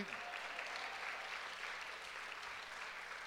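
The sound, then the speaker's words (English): A church audience claps for a youth pastor, making a steady wash of many hands at moderate volume that holds evenly for a few seconds. “You guys, you missed first service, did a better job of clapping for Pastor Jeff.”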